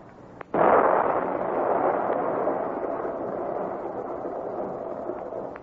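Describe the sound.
A dynamite blast sets off after a blasting warning. It hits suddenly and sharply, then a dense, heavy rumble stays loud and fades slowly over several seconds.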